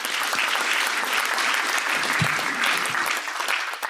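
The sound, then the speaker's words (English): An audience at an evening program applauds the trustees and council members: steady, dense clapping at an even level throughout, with no voices over it. “Let's give them all a big hand.”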